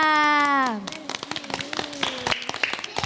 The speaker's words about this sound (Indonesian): Berikan aplaus yang meriah untuk teman-teman kita.